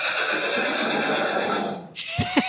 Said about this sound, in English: Do you still have Chili's? That's your pony, right? Yeah, that was my pony.